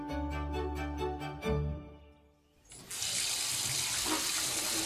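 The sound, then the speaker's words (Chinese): Tap water runs into a container for rinsing rice, starting partway through and continuing as a steady, bright rush to the end. “首先呢，要把米洗一洗，像这样用水搅拌，重复一到两次，把白米中的杂质清洗干净。”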